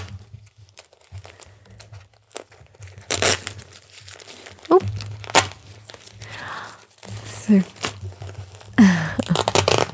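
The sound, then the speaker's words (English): A crinkly plastic diaper is handled during a baby's change, making intermittent bursts of crackling and rustling with quieter pauses, while a voice is heard at times. “I have a nice crinkly diaper for you with a little surprise.”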